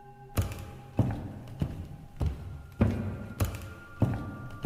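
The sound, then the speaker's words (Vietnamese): Dull, dry knocks like nails being hammered into a coffin, heard at night. Eight evenly spaced thuds fall about every half second, each with a short low ring, steady and moderately loud with no talk. “Nghe loáng thoáng qua, tựa như là tiếng đinh đóng quan tài.”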